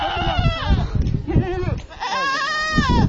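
Goats bleat from a herd of about thirty head of small livestock. The calls are loud, overlapping and wavering, and they come in several successive cries that run through the whole clip.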